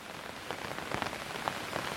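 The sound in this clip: Rain pattering on an umbrella, a soft, steady hiss of drops with a few brighter taps standing out, quiet and without voices.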